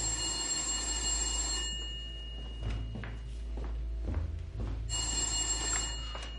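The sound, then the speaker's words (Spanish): A telephone bell ringing in a home living room: two sustained, bright ringing bursts separated by a pause, with a few soft knocks and clunks in the gap between them. “Benjamín sale de la cocina y coge el teléfono en el salón”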